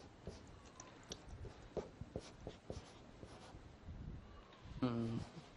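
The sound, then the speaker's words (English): Drawing the seal of Westminster on a board, with scratchy strokes in a loose, uneven rhythm, then a brief voice near the end. “Look at the seal of Westminster. I keep drawing it like that.”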